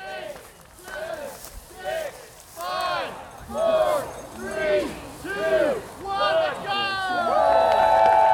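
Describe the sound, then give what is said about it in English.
Excited shouts and calls from marathon runners bunched along a narrow trail section at a starting line before 7 a.m. Many overlapping voiced cries rise and fall in pitch over a steady crowd hubbub. “A little before 7 a.m., I heard commotion near the starting line. Marathon runners stack up along a narrow section of trail.”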